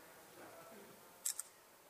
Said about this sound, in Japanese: はい、じゃあ記念写真をして本番に入りたいと思います。